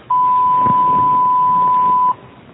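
A voicemail recording beep sounds as one steady, high, pure tone that holds for about two seconds, loud and alone, then cuts off.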